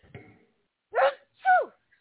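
A person sneezes in a short two-part burst, the second part louder and falling in pitch, preceded by a faint brief sound and followed by quiet.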